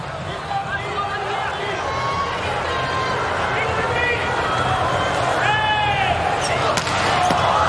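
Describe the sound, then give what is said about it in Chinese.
A volleyball serve in a men's match involving the Chinese team, heard as a few sharp ball impacts under a steady, loud roar of the arena crowd, with a whistle-like tone near the end. “好发球！ 球没有过来，中国队比分反超。”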